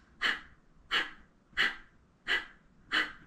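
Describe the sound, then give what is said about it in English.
Forceful nasal exhales during a Kundalini yoga breathing exercise, with five sharp, evenly spaced puffs pushed out through the nose in a steady rhythm and quiet gaps between them. “Pushing out the nose like you're trying to blow something out with your nose. Only focused on the exhale.”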